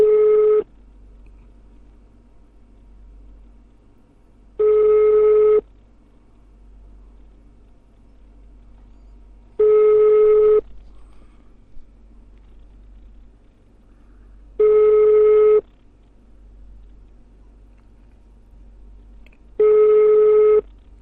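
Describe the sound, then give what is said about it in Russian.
Telephone ringback tone of an unanswered call: five long, steady beeps of about a second each, evenly spaced with roughly four-second gaps of quiet line hiss, loud and without talk. “Еще раз набираю.”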